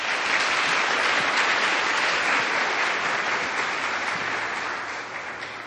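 Dense audience applause welcomes a Dominican sister to the podium at a church gathering. The steady, sustained clapping holds at one level, then eases slightly near the end.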